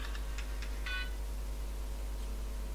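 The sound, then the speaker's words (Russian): A phone signals an incoming call with a few quick electronic beeps that then stop, over a steady low hum. “Вот он нам звонит, опять кто-то.”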